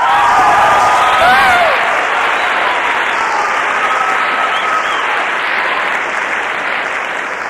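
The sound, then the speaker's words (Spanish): An audience breaks into loud, steady applause, a continuous wash of many hands clapping together that holds strong for several seconds before easing slightly toward the end. “También un aplauso muy, muy fuerte para sus esmeraldas, Bernardés, Pedro Hernández y Emerson Andrade.”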